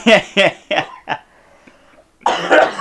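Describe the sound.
Coughing from someone with rice stuck in their throat while eating home-cooked cultural food: four sharp coughs that grow weaker, followed by a pause and then a voice talking.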